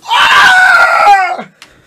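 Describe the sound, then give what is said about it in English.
A person's voice imitates a scream of pain, as if caught in an arm bar during a fight: one loud, strained cry held steady for about a second and a half before trailing off. “Or makes audible sounds such as screams indicating pain or discomfort. So I'm in an arm bar and I go,”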